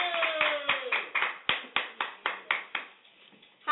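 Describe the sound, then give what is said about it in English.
Hand claps from an audience welcoming a guest onto a show: a rhythmic run of sharp, evenly spaced claps that fade slightly before a final clap at the end. “Everybody, give it up for Infinite the Poet!”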